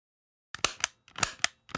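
A toy gun fired with ammunition gives several quiet, sharp pops and clicks in an uneven sequence after a brief silence.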